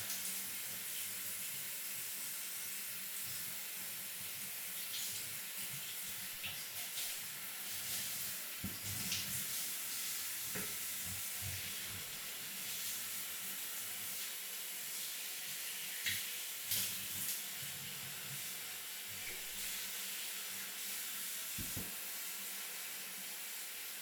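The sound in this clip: Running water splashes steadily as someone washes a customer's body, a continuous hiss broken by scattered soft splashes and thumps, with no talk.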